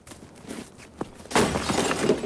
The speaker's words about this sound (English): picks it up and hurls it at the windscreen of the broken-down car